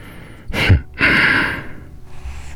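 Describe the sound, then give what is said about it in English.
Close, audible breathing begins with a sharp gasping intake, follows with a longer sighing breath, and ends with a fainter breath trailing off. “Hearing you breathe like that is amazing.”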